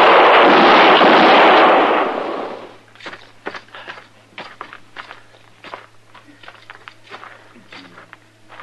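Gunfire in a western gunfight: a loud, dense blast roars for over two seconds, then gives way to quieter, irregular clicks resembling footsteps.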